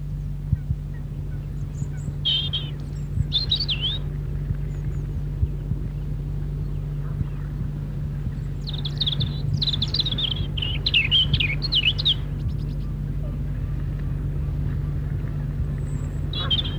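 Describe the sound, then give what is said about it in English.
A robin sings its melancholy winter song in two bursts of thin, high, warbling phrases separated by a pause, over a steady low hum. “here's the robin's song, a rather melancholy, that means sad, winter song.”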